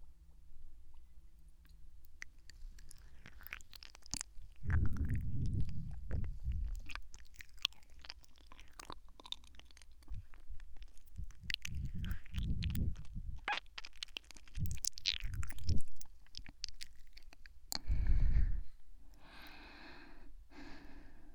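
Someone chews and munches the last of the medicine, with bursts of wet mouth sounds and breathy snorts and gasps, no talking.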